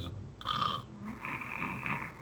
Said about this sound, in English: It just ends it with him snoring.